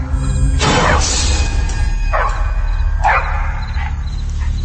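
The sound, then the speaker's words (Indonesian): A dog gives a few loud, sharp yelping barks with whiny, falling cries between them, repeated at irregular intervals over a low background rumble. “aku terbangun ketika mendengar suara anjing yang terus menggonggong dan melolong sangat keras.”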